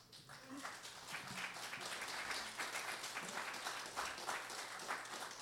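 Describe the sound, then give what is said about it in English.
Audience applause for a panel of speakers at a live event: steady, fairly faint crowd clapping that holds an even level for the whole stretch. “Can we give it up for our panelists?”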